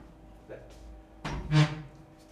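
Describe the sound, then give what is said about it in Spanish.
A window being closed: a dull thunk followed by a short, louder scraping rush, fairly quiet overall. “El viernes, espera que cierro la ventana.”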